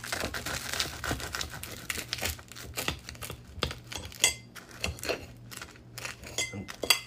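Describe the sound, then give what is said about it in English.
A knife saws through a sandwich of tough bread, giving many crunchy, crackling strokes with scraping and crinkling textures in an irregular rhythm. “Here, listen to me cutting the sandwich.”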